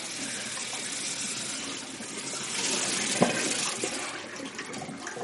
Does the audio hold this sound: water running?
yes

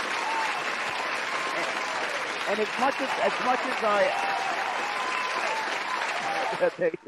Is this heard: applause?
yes

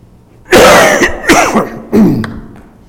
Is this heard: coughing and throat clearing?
yes

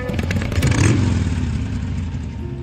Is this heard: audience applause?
no

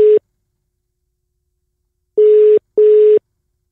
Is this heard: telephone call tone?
yes

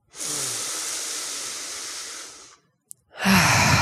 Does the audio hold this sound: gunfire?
no

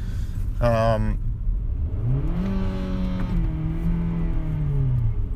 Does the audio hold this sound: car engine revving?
yes

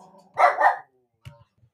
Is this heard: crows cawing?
no

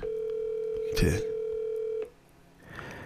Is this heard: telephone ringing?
yes

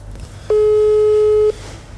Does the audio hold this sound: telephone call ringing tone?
yes

